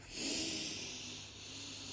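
Breathing during a guided meditation: a long, soft, airy hiss of breath that swells quickly and then holds steady at a moderate level, heard on its own.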